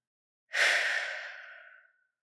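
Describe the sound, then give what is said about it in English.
A slow breath during a relaxation breathing exercise, one long airy exhale that starts firmly and fades out gradually over about a second and a half. “And do this a few times as you breathe in and out.”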